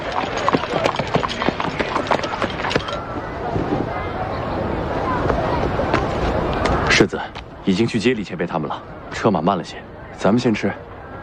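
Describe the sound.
Horse-drawn carriage hooves clip-clop on arrival in a town, a dense, steady clatter that fills the first part, with people talking over and after it.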